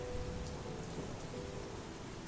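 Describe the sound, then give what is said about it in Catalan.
Steady rain falls in a sudden downpour, soaking the ground with a dense, even hiss that holds at a constant level throughout, with no voices. “Sa pluja queia sobre la seva cara”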